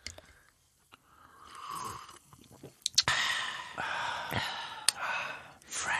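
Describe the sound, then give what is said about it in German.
People drinking quietly during a pause with no talking: gulps, breaths and sighs, with a few sharp clicks and wet mouth sounds in between. “lass mal einmal so eine ASMR-Pause machen und alle einfach nur trinken und nichts sagen.”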